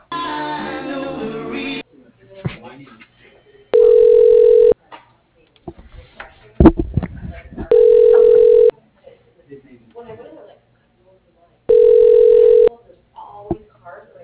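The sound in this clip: Ringback tones of a telephone connecting to an office extension through an automated directory: three steady, buzzy rings separated by pauses. A short stretch of talk comes at the start, and faint noises fall between the rings.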